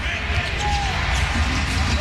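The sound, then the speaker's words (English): A basketball bounce pass during a game gives dull thumps of the ball striking the court, heard under a voice talking over steady crowd noise. “Bounce pass over on the right side to Koa Pete.”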